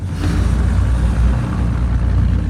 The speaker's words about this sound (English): She puts her hands on the steering wheel and drives off.